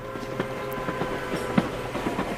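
A train runs on its rails with a steady rumbling roll and a repeating rhythm of clickety-clack wheel clicks.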